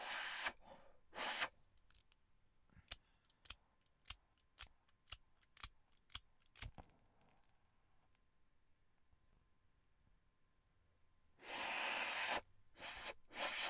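A lighter being flicked inside a car: a long series of crisp, sharp clicks at a fairly steady pace, framed by loud, rough bursts of hissing at the start and again near the end.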